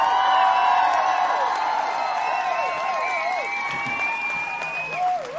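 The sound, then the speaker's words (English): Applause and cheering greet a guest with a standing ovation: a steady wash of clapping threaded with high whoops and whistles, easing slightly toward the end. “Standing ovation.”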